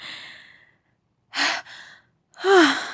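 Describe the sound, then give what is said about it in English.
Heavy breathing of someone catching their breath after exertion: a few breathy gasps and sighs separated by short pauses, the last one louder and carrying a voiced groan that slides downward. “just let me catch my breath.”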